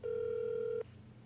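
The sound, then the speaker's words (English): A single steady ringback tone on an outgoing telephone call holds for under a second, then cuts off abruptly, leaving faint low hum. “No one's picking up lately. What the hell's going on? He knows I'm calling.”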